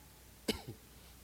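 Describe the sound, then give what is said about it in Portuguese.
A preacher coughing during a sermon: one sharp, faint cough followed by a smaller second burst, alone, with no talk over it. “Já quero aproveitar também para pedir desculpa aqui pelas tosses.”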